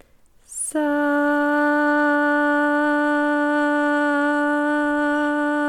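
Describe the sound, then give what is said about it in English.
A brief, soft breathy inhale, taken before chanting Sat Nam in a throat chakra meditation, swells quickly and then gives way to a loud, long, steady sustained tone that holds one pitch for about five seconds. “Take a deep breath in.”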